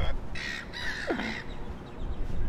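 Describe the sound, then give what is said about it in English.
A flock of seagulls calling, with a few harsh, squawking cries over a steady, windy rumble. “we've got a pack of seagulls flocking”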